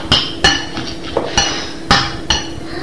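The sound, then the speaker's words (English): Sharp metallic clinks and knocks as a hot coffee pot is handled, with several distinct hard taps spaced irregularly over a quiet background. “That's the coffee pot.”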